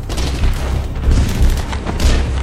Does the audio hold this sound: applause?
no

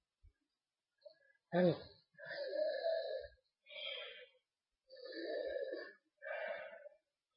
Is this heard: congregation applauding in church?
no

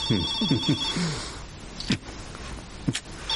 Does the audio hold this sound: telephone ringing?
yes

